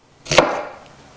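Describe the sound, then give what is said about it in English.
A single knife stroke cutting an onion in a kitchen: one short, sharp chop against a board with a quick decay, alone without talk. “We're going to cut... just a little onion right here.”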